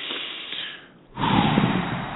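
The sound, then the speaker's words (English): A deep breath taken to release body tension: a soft breath sound, a brief pause, then a louder, fuller rush of air that carries on to the end. No one talks. “Starting with decreasing some tension in our body, taking a breath that goes.”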